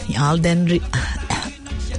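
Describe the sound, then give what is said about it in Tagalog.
Coughing from a person who still has a slight cough, in a few harsh bursts that blend with voiced, speech-like sounds. “nabubulunan ako ah. Medyo inuubo pa po ako ng kaunti at may nakakaalala lang ata sa akin kaya po ako randomly nauubo.”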